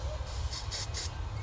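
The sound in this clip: Spray paint can hissing out short bursts, held a little farther back to add star-like shapes over white areas; a few quick, bright hisses in close succession above a low background rumble.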